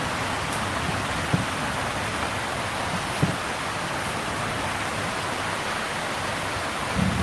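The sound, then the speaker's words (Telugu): Light rain drizzling and dripping indoors: a steady, even hiss runs throughout with a few slightly sharper drop taps standing out, no voices. “కానీ కొద్దిగా ఇప్పుడు చినుకులు లోపల వరకు పడుతున్నాయి.”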